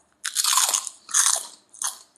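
Crunching on dry pork crackling (pork rind): three loud, crisp bites, the first longest and the last shortest, with no talk.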